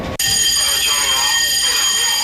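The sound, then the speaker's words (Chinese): A military combat alarm blares at a Hong Kong naval garrison, a loud, continuous electronic buzzing tone with steady harmonics that starts abruptly after a split second and holds unbroken to the end. “战斗警报！”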